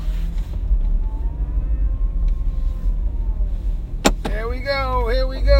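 Steady low rumble of a car driving along, continuous and even, broken near the end by one sharp click.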